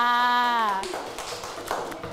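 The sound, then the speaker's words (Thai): Applause from a group honoring a child representative in a class. A voice is heard briefly at the start, then faint, scattered hand clapping follows for a couple of seconds. “เอาปรบมือให้ตัวแทนของเราค่ะ”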